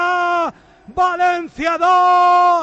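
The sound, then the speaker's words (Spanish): Getafe football players yell loudly near the corner flag as they celebrate a goal against Valencia. The cries are raw, sustained and bellowing, broken by brief pauses. “Los gritos que llamamos eran de los jugadores del Getafe, que se han acercado ahí al banderín de córner y estaba cerca el micro de la retransmisión televisiva.”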